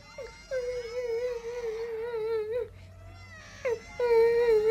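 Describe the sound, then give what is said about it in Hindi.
A person cries in a few long, wavering, high-pitched wails. They are separated by short breaks, with a brief sob before the last loud cry. “अरे ये तो किसी के रोने की आवाज है।”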